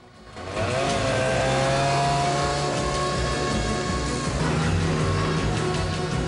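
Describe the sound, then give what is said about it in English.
A car engine drives toward a wooden lodge set among trees, loud and steady throughout, with revving and shifting engine pitch after a quiet start. “drives towards a wooden lodge set among trees”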